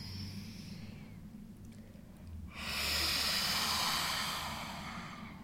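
Deep breathing during a guided breathing exercise: a slow, quiet inhale, then a long, louder, airy exhale that hisses steadily before gradually easing off.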